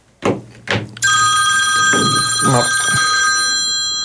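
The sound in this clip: A telephone rings in the Real FM radio studio. Two short knocks come first, then a loud, sustained electronic ring carries on to the end.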